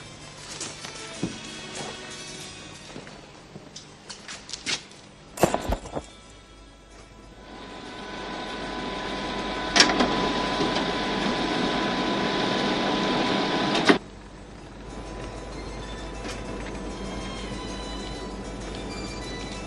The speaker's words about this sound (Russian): Великолепное изобретение, не правда ли? Вы знаете, можно оспаривать текст, напечатанный на машинке. Но фотокопировальная машина – это непровержимо.